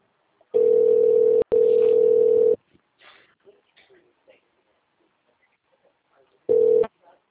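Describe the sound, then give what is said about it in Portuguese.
Telephone keypad tones in an automated city hall phone menu as 1 is pressed: two long, steady beeps back to back, then a quiet gap with faint small sounds and a shorter final beep. “Para falar com a Secretaria de Saúde, digite 1”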